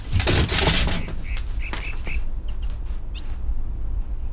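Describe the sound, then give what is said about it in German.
Electric shock sound effect from a radio drama, a man jolted while pressing down a metal coupling with both hands: a dense crackling, buzzing burst at the start that thins out, followed by a few short high chirps. “Er ist tot. Tot durch einen Stromschlag.”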